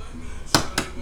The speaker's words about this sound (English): Sorry, I'm breaking eggs right now.